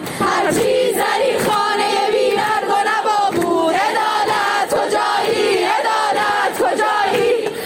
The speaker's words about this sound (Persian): در دانشگاه هنر و معماری پارس دانشجویان دست به تجمع اعتراضی زدند.